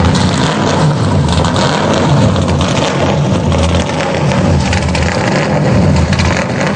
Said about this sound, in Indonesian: Kaya sing wis tak badhe mobil mau njur mlaku maneh.